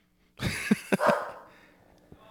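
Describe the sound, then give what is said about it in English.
A dog barks a few times in quick succession, with short, sharp bursts of moderate loudness. After a pause, one fainter bark follows. “And there goes my damn dog. Shut up.”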